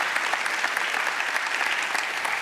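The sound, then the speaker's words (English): A church audience applauds at a Celebration Sunday service, honouring people who served on its teams over the year; the clapping is dense, even and moderately loud for the whole stretch. “I want you to stand to your feet, and I want to honor you and thank you for an incredible year. Thank you. Come on, let's give it up for them.”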